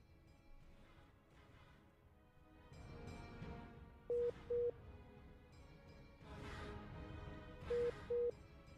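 Telephone call-waiting tone sounds on the line as a caller receives another call: two pairs of short, steady mid-pitched beeps, four in all, over a faint hiss and muffled background.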